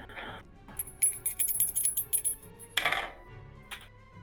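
Dice rolling on a table during a tabletop role-playing game: a rapid, clattering run of many light clicks and rattles, with brief breathy sounds before and after.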